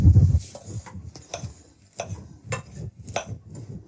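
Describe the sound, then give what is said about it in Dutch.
Minced meat for burgers, seasoned with rock salt, is mixed with a spoon, giving repeated soft scraping strokes and light clinks at an uneven, unhurried rhythm, with no talk. “En dan gaan we hier kijken als we daar kunnen burgertjes van maken. We gaan dat eerst goed mengen.”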